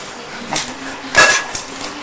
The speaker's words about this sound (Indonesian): udah aduk ya aduk dulu ya udah